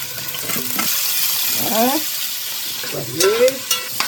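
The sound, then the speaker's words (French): Sizzling and stirring as meat goes into a cooking pot over a wood fire. A steady hiss runs throughout, with a few louder stirring bursts toward the end. “Les flammes du feu de bois sont prêtes à accueillir la marmite et faire mijoter son contenu. Je vais mettre la viande.”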